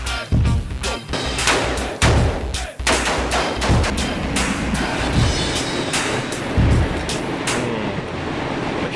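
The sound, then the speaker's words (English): Gunshots fired at store-bought bacon: many sharp, loud bangs in an irregular rapid string, some closely spaced, with rumbling low thumps between them and no talk. “Gun bacon. Any hunter can track and shoot an animal, but it takes a true outdoorsman to use a gun on meat he already bought at the store.”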